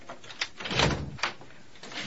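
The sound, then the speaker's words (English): A door is unlocked and opened by a maid: a few soft clicks and rattles, with a louder, fuller scrape in the middle as it swings open, all fairly quiet. “A maid unlocks the door and looks in.”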